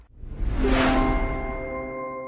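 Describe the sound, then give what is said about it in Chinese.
A stock exchange opening bell for the New York Stock Exchange and Nasdaq, rung in the White House Oval Office, gives one bright ringing strike whose clear tones hold and slowly fade over two seconds. “在白宫椭圆形办公室敲响了纽约证券交易所和纳斯特克的开市钟”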